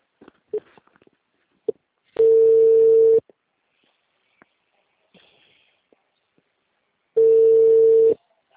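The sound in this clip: Ringback tone on an outgoing telephone call: two steady one-second tones about five seconds apart, with faint clicks and handling noises in the gaps.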